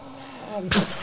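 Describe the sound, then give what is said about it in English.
A voice imitates a broken ship's fin splashing into water. Brief murmured talk gives way to a sudden, loud, breathy burst that hangs on briefly. “splashes in the water”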